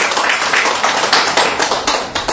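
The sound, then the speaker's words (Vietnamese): An audience claps loudly during a Vietnamese Catholic homily, a brief, dense burst of many hands with sharp individual claps standing out through the rapid patter. “Tròn tràng pháo tay đi thưa anh chị em.”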